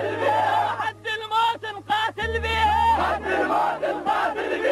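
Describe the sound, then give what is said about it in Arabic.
Iraqi soldiers chant in the presence of Saddam Hussein: forceful massed voices shout in unison in rhythmic bursts with brief gaps, over a steady low drone. “هتاف الجنود العراقيين بحضور صدام حسين.”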